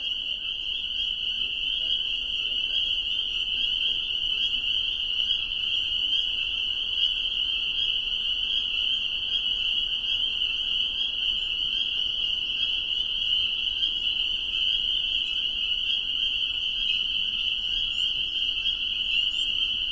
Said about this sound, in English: I turned it to face the reed bed at the edge of the pond, where the spring peepers had begun their evening chorus.